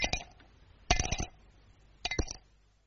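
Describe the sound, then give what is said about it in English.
Cape plum stones clinking on a plate, heard as three short clusters of light, bright clicks and clinks separated by quiet pauses, all fairly faint. “Inside every Cape plum, there's a nice clean stone asking to be let out. There's a very sweet sound to Cape plums when you have them for afters.”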